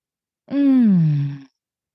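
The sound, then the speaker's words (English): A single deep breath let out as a voiced, sigh-like exhale, about a second long, starting firm and falling in pitch as it fades, heard alone. “Let's take a breath.”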